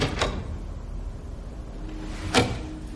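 A door handle is turned and a door opened in a house: two brief clicks, one near the start and a slightly louder one near the end, over a steady low background.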